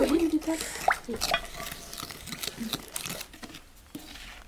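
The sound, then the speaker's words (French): A mixture with oil is stirred in a bowl during home cooking with children, giving soft, irregular scraping and sloshing that is faint and fades toward the end, with brief voices near the start. “Je crois qu'il faut ajouter. De l'huile. De l'huile. Bravo, Sohan. Et bah regarde. C'est bien, vous mélangez bien.”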